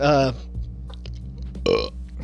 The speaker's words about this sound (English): There I go, burping again.